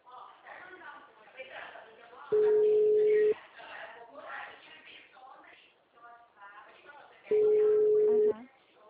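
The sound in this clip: Telephone ringback tone while calling an agency where nobody answers: two long, steady, mid-pitched tones about a second each, roughly five seconds apart, sounding under ongoing conversation.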